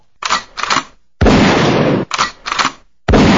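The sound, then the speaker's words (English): Two sound-effect gunshots, each a loud sustained blast preceded by a pair of short sharp bursts, with brief silences between the groups. “Okay, give me two guns. How about that? Two gunshots. Two. All right, here you go.”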